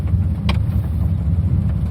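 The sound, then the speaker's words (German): Engine of a T6 van pulling away, heard from inside the cabin with four people aboard: a steady, low rumbling drone throughout, with one brief click early on and no talk. “Ja, wir fahren einfach mal los und gucken, was es hergibt.”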